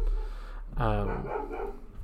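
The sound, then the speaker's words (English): A dog barks and whines in one short burst of bark-like yelping over a steady low background hum. “Apologies for the dogs.”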